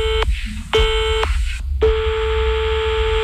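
Electronic phone-line tones sound after a call is hung up: three steady, loud beeps at one pitch with short gaps, the last held much longer, over a low background hum.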